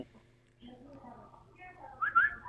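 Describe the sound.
A man whistles in imitation of a koel bird: a voice is heard first, then bright, high whistled notes that rise sharply near the end.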